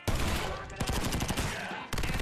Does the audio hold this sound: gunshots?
yes